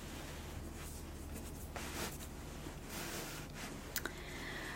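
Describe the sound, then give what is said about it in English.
Soft pencil writing as notes are jotted down by hand at a bed-and-breakfast check-in desk: faint, continuous scratching strokes with a few brief light taps near the end, very quiet and unhurried. “Would you want me to go ahead and write those down for you?”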